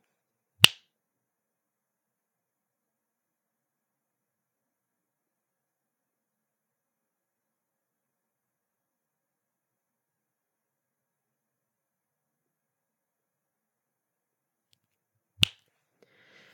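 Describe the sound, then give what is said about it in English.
Two sharp finger snaps, one near the start and another about fifteen seconds later, each a single crisp click standing alone against near silence. “Warning, anybody with headphones, I'm going to snap.”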